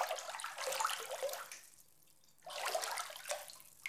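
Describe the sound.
Faint water splashes and pours while a baby is bathed, in two soft, hissing bursts separated by a brief quiet lull.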